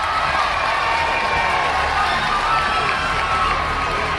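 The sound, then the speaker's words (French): Roadside crowd cheering and applauding as a women's cycle race climbs past. Loud, continuous shouting and clapping blend into a dense, steady roar that holds at one level throughout, with no single voice standing out. “on entend les cornes de brume et les applaudissements.”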